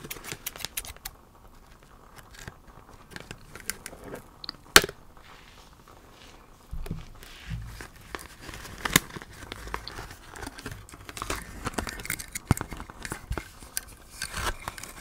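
Scissors snip steampunk goggles free from their packaging with crisp cutting clicks and crinkling plastic. The sound is mostly soft, with a few sharper snaps standing out.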